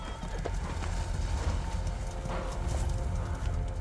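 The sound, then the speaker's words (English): Horses gallop fast with riders along a beach, over sand and through shallow water, their hooves making many quick, rhythmic beats at a low, soft level. “Matthias and Tarla ride down from a hill and across more sand, then shallow water. Amina holds onto Matthias with one arm as they ride fast along a beach”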